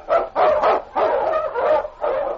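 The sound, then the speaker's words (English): A husky sled dog, an Eskimo lead dog, barks in a run of several loud, gruff barks separated by brief gaps, with some barks coming in quick doubled bursts. “The Wonder Dog King, swiftest and strongest Eskimo lead dogs, blazes a trail through storm and snow for Sergeant Preston as he meets the challenge of the Yukon.”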